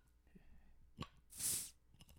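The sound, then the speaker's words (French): A soft, spongy bottle stopper working loose from a bottle gives a faint dull thump, then a short airy hiss that swells and fades, over quiet background noise. “je pense que c'est le bouchon de la bouteille le problème. Il est mou. Il se défait plus qu'il se débouche.”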